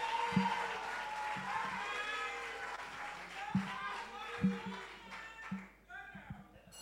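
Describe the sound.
Applause from the audience welcoming the principal speaker of a senior high school debate: a broad, steady wash of clapping with a few sharper taps, and voices mixed in throughout.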